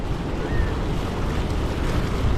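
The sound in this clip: Ocean waves splash as wind blows the spray, making a continuous loud rushing roar with a dense low rumble and no distinct breaks.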